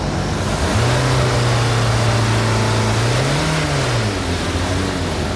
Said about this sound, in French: On va voir avec les accélérations si on est dans les normes.